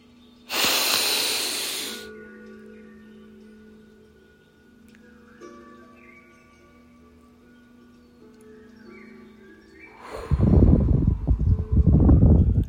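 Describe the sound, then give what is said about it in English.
A deep breath taken together: a loud, noisy inhale at the start, then soft sustained tones, then a long, breathy exhale that swells near the end. “As always, we're going to take our commemorative breath.”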